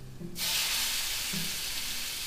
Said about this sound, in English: And we leave it cook a little bit of the shrimp